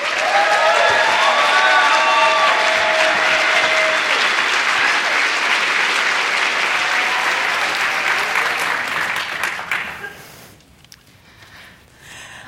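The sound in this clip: Audience applause welcomes two speakers at an author event: a thick, even wash of clapping that holds steady for about ten seconds, then drops off quickly to near quiet with a few last claps.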